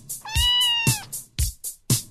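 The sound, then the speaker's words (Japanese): A domestic cat lets out one drawn-out, clear meow, followed by a voice speaking in short separate bursts. “キャット。 猫。”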